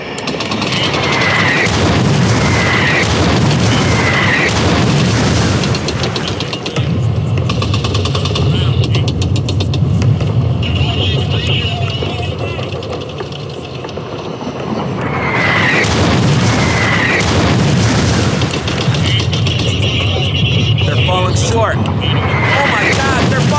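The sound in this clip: Artillery shells exploding close by: heavy booms inside a continuous, loud roar, with engine-like mechanical noise running throughout.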